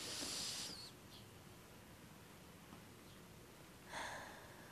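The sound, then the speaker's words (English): Two faint, breathy nasal sniffs, one at the start and one near the end, are separated by a long stretch of quiet background hiss. “oh my gosh, why am I sniffing? Hold on. I don't have a fever.”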